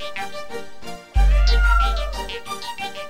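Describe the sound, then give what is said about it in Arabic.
A cat meows with a drawn-out, wavering cry that starts with a sudden low thump, set against continuous background sound. “قطة. ايه ده انت جيتي منين؟ خدي تعال اجي يا قط. يلا خدي تعال.”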